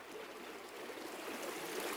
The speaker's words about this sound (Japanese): 滝を越えた山の上流、岩の間を流れる澄んだ水